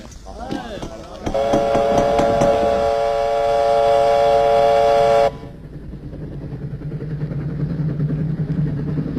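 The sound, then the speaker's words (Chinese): A train at night sounds a loud, steady horn for several seconds, which cuts off abruptly and leaves the lower, rumbling clatter of the moving train. A voice is briefly heard at the start. “晚上，老红带领飞虎队杀上火车”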